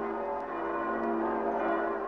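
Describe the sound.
Church bells ring from all the towers in Berlin, ordered to welcome an emperor's victorious entry through the Brandenburg Gate on a sunny day. Overlapping peals blend into a dense, steady clangour without separate strokes.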